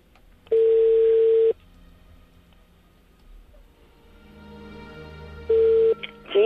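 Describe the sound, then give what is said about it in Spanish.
Telephone ringback tone while a call is being placed: two long, steady mid-pitched tones separated by a long pause, the second one shorter and cut off, over a faint low background hum. “estamos llamando a Pilar. Venga.”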